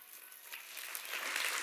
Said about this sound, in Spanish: ¡Que alguien le dé un aplauso al Señor!